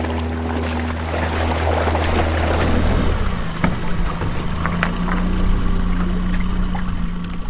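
Fishing boat under way on the Étang de Campignols at Gruissan on a winter morning: a loud motor drone that shifts lower partway through, with water swishing and sloshing against the hull.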